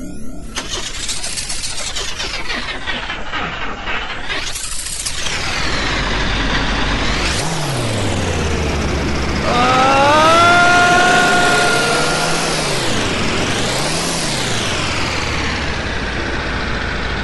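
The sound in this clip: Rocket engine ignition and launch rumble: a loud roaring drone whose pitch sweeps up and down repeatedly, with a deep low rumble swelling through the middle of the sequence.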